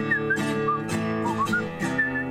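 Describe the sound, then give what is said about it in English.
A person whistles a tune with clear, sliding notes across several short phrases over a steady, dense backing, loud and continuous throughout. “This is a whistling part you're supposed to do.”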